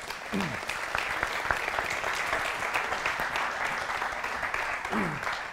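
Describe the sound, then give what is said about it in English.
An audience applauds as two guests are invited to come up on stage. The clapping is dense and continuous, from many hands, and holds at a steady level from start to finish. “I'm going to ask Dr. John Balakowski and Jason Buck to join me on the stage. Would you give them a hand as they come?”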